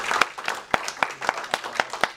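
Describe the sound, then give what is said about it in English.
Scattered audience clapping after a talk about running a school, a thin run of separate, irregular hand claps rather than a full ovation, fairly quiet. “Just get the claps, man.”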